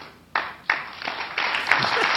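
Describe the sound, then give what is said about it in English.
Slow clapping: a couple of separate, sharp claps with pauses between them, then the claps come faster and thicken into sustained, fairly loud applause. “Slow clap, slow applause.”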